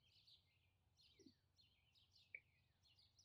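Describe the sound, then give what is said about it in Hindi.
Asian koel calling: a faint series of repeated high whistled notes, each sliding downward, recurring at a fairly regular pace over a low steady background rumble, with no voices. “कोयल फिर से कूकने लगती है”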